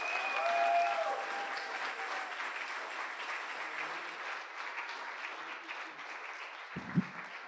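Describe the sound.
A church audience stands and applauds in welcome during a service, with steady, sustained clapping that holds at an even level, followed by a brief low thump near the end.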